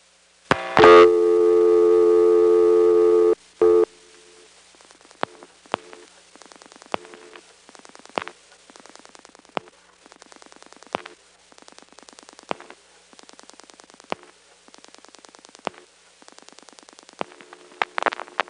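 Telephone line pulse-dialing the number 516-599-0000 with a normal start: a steady harmonic dial tone sounds first, then breaks off into many sharp clicks grouped in quick bursts, one burst per digit, separated by short pauses.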